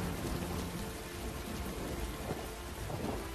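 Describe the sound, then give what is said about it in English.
Steady rain drizzling on a city rooftop and a leather bodysuit, a constant hiss with low rumbling thunder underneath and no voices. “Rain drizzles on his leathery bodysuit. I'm not the bad guy. Lightning flashes, illuminating the brick facades of the buildings below.”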